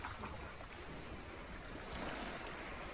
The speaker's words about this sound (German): Und ich überlasse dich jetzt den Klängen der Wellen,